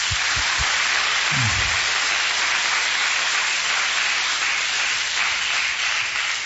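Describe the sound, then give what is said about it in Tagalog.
An audience clapping in church, a dense, loud patter of many hands that stays steady and unbroken from start to end. “Once again, our best clap offering to Him.”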